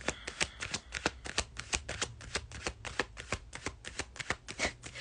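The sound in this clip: Tarot cards being shuffled: many quick, papery riffles and flicks repeat in a steady, even rhythm, soft and close, with no voices.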